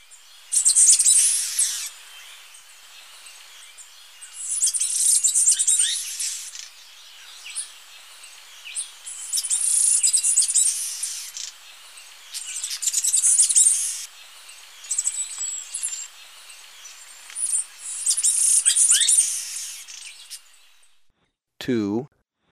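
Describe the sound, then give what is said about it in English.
Birdsong from a Slaty Finch with an Azara's Spinetail: several bursts of high, thin chirps and trills repeat with short gaps between them, ending with a brief descending note. “Slaty Finch, 1, with Azara's Spine Tail.”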